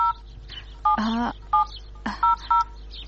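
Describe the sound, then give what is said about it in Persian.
Telephone keypad dialing: several short dual-tone beeps at an uneven pace, clear and moderately loud over a steady low hum, with a brief voice-like burst between them. “یال به فاطمه زنگ میزنم”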